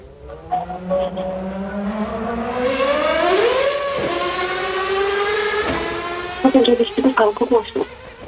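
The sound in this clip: A racing car's engine whines loudly, its tone climbing steadily, then drops abruptly as it passes. A quieter steady drone follows, then a few short choppy bursts near the end.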